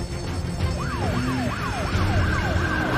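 Police car sirens wail as the vehicles close in around a plane, sweeping up and down in pitch at a steady repeating rate over a constant rumble of engine and road noise. No one speaks.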